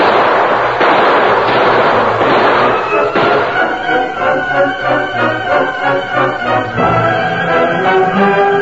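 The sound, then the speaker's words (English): Gunfire rattles through a radio drama shootout as a gang is fired upon: many shots in dense, rapid, uneven bursts that stay loud and sustained from start to finish. “They're firing on him. Open up. There's the critters down below. Shoot at the gun flasher. Let him have it.”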